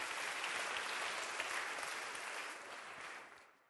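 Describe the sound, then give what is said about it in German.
Applause from an audience at a church gathering thanking its volunteers: a dense, steady clatter of many clapping hands that holds evenly for about three seconds, then fades out at the end. “und dann geben wir uns gegenseitig einen fetten Applaus”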